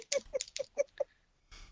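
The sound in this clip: Computer keyboard keys pressed for copy and paste shortcuts: five clacking keystrokes in a quick, even rhythm, a short pause, then a softer rustling burst.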